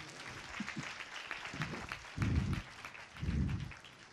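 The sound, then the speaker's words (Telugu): Audience applause at a Christmas festival gathering: a dense, steady patter of many hands clapping together, fairly loud and sustained throughout the whole stretch. “చెప్పలు కొడతారు ఒకసారి గట్టిగా”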